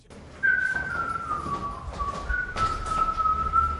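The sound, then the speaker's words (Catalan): A football fan whistles the FC Barcelona anthem while leaving home: a clear, sustained whistled melody with slight pitch shifts begins shortly after a faint lead-in and carries to the end over low background noise. “Ara hi ha un aficionat que surt de casa seva xiulant l'himne del Barça.”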